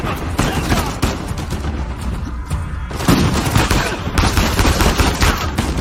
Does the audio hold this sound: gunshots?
yes